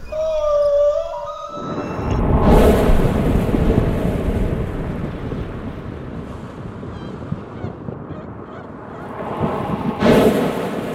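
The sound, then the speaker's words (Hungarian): Plastic waste rustled and shifted to imitate sea waves, giving a loud, surging wash of noise that swells and recedes, after a brief tonal, horn-like note at the start. “Amit hallottál, az nem tenger volt, hanem műanyag szemét, mert hamarosan több műanyag lesz a tengereinkben, mint hal.”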